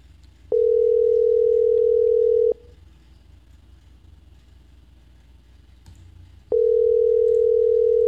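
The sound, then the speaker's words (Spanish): A telephone ringback tone heard while placing a call to a town mayor: two steady, loud, mid-pitched tones of about two seconds each, separated by roughly four seconds of quiet line hiss. “Entonces, sí, nos puede. Ahora, a ver, vamos a ver. Ha estado en línea. Ahí lo estoy llamando al alcalde.”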